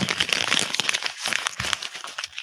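Paper crumpled right into a microphone, giving a dense, crackling rustle of irregular crinkles that runs for a couple of seconds, loud and harsh, with no talking.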